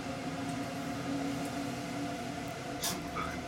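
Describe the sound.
Steady low rumble and hum of a long-distance train departing from the station, with a few tonal lines running through it and a brief hiss near the end.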